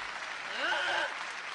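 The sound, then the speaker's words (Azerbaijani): Audience applause, a steady dense wash of clapping that swells slightly in the middle, with a voice briefly speaking over it. “Təşəkkür! Alqışlarınıza qurban!”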